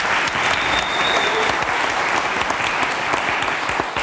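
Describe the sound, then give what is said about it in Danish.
Audience applause for a sound engineer on his promotion to lead sound engineer: dense, steady clapping from many hands that stays loud and even for the whole four seconds. “Han vil i dagens anledning blive forfremmet til ledende lydtekniker. Rigtig hjertelig tillykke med den. Og så er det, ja, han skal have en applaus.”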